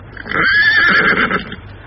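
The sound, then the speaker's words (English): A little mare whinnies in a snowstorm, giving one loud, drawn-out neigh with a quavering high tone that fades out after about a second. “It was a vixenish little mare, but she and Tom knew each other, so she kept going until a heavy fall of snow and a mighty gust of wind brought her to a standstill.”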